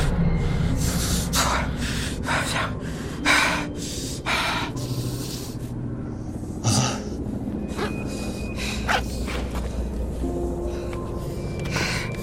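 Heavy, rapid breathing and gasps from people catching their breath after running from a patrol: many breathy bursts in an uneven rhythm at a moderate level, with no talk.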